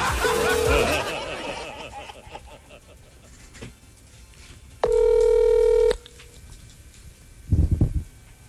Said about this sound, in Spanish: Conteste, pues. No, me rechaza la llamada.